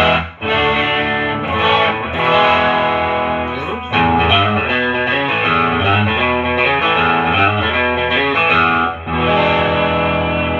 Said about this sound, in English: Let's go to the middle and bridge. Got a middle pickup.